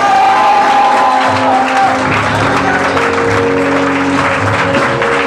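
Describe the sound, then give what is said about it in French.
An audience at a church service cheers and applauds loudly, with continuous clapping mixed with shouts and whoops that carry on throughout. “Dans le nom de Jésus, si tu es là et que tu as reçu cela, acclame le Seigneur.”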